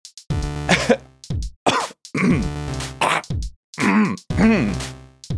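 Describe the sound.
One person coughs and clears their throat in a rapid series of loud, harsh, rasping bursts, some strained and groaning, with short silent gaps between them.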